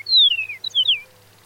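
Chihuahuan meadowlark song in its desert home: a few clear, high whistled notes, most sliding downward, come in a quick phrase and then fade, with a faint low hum beneath.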